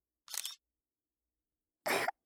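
Two brief camera shutter sounds are separated by silence. The first is softer and the second is louder and fuller.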